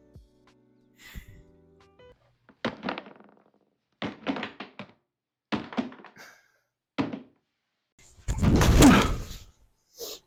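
Cardboard box of a new-flavor cereal being opened: several short, dull thunks and taps separated by brief pauses, then a louder, longer rustling burst near the end.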